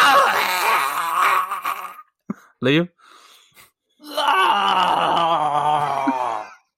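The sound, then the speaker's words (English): A voice imitates the groan of someone being disembowelled: a drawn-out wailing moan, a pause broken by a short spoken word and a brief yelp, then a second long, strained groan. “What noise would you make if you were laying down with your insides being ripped out?”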